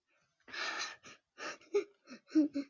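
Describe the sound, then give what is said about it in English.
A dragon's quickening breath as a sound effect: a long breathy gasp followed by a series of shorter, sharper gasps that speed up, the later ones with a low voiced growl. “The dragon's breath quickened.”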